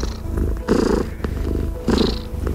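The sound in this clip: A cat purring: a low, rough, continuous rumble that swells and eases in a steady rhythm with each breath, fairly loud and alone, with no talk.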